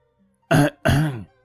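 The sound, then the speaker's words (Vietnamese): Two short, dry coughs, faked by an old man, come one after the other with a brief pause between them. Both are fairly loud, throaty and heard alone. “Lão Đồng làm bộ ho khan hai tiếng, cắt đứt luồng suy nghĩ của hai người.”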